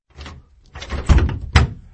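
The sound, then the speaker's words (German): A studio door locked from the outside being tried and rattled without opening, giving a few loud, dull thumps and rattles in quick succession, the heaviest knocks coming near the end, with no voices. “Was ist denn das? Warum geht die Tür nicht auf? Die Tür war von außen abgeschlossen.”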